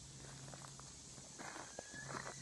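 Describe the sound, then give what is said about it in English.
Footsteps of hikers on a trail near Cascade Creek, a few soft, irregular steps, faint and close together with little else around them. “So we're hiking on the trail. We came down from there. This is the trail.”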